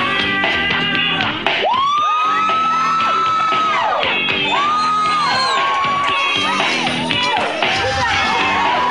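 A studio audience of a 1992 TV drama show cheers and whoops loudly, with many high rising-and-falling whoops over continuous crowd noise.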